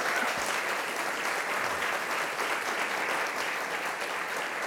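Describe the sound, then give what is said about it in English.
An audience applauds to welcome a young Australian writer onto the stage, a steady, dense patter of many hands clapping that holds an even level throughout. “Please put your hands together to welcome Ellen van Neerven.”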